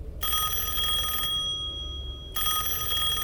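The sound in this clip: A telephone rings with an incoming call: two long bursts of bright, trilling ringing separated by a short silent pause, loud and alone.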